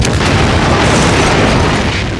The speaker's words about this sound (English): As it rolled towards the truck, he watched it, waiting for the explosion.